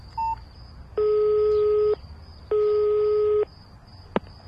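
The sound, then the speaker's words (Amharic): Telephone tones as a call is placed: a short beep, then two long, steady electronic ringing tones with a gap between them, ending in a sharp click. “ይህንም ቆይ ልደውልላትና የምትለው ልስማ”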